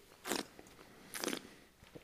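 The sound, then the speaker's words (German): Two short, noisy slurping sips of Olasz Riesling wine, taken about a second apart. Each is a brief airy burst, fairly quiet, with no talk around them. “So, jetzt habe ich irgendwie gerade einen trockenen Mund. Ich nehme noch mal einen Schluck von meinem Ollas-Riesling.”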